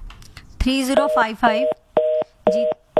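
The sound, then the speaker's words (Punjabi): A phone line tone sounds after a call drops: a short burst of voice gives way to evenly spaced, identical beeps of the same pitch, repeating at a steady rhythm. “Phone ਕੱਟ ਗਿਆ, ਤੁਸੀਂ ਦੁਬਾਰਾ ਕਰ ਸਕਦੇ ਹੋ ਜੀ।”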